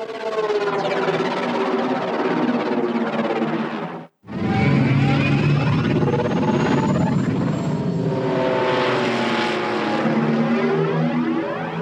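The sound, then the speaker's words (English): A sci-fi Republic gunship flying, built from aircraft recordings made at Gnoss Field in Novato, California: a loud, droning harmonic whine with wavering, siren-like pitch that cuts out briefly partway through and then resumes. “next sound in the list, the Republic gunship.”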